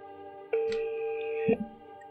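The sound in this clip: A telephone tone from a call to a real estate office holds steady for about a second, followed by a soft click, over a quiet background.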